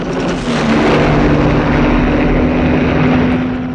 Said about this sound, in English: The helicopter banks over the house.